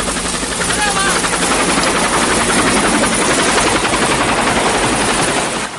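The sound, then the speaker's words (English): A helicopter hovers over a tree canopy and comes in to land at a camp, its rotors producing a loud, continuous thudding roar that holds steady from start to finish. “the chopper hoves over the tree canopy and comes into land in the camp”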